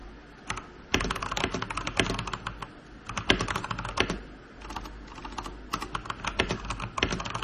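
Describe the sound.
Typing on a computer keyboard: a long run of many sharp, irregular keystroke clicks with brief pauses between bursts, moderately loud and steady, with no talk.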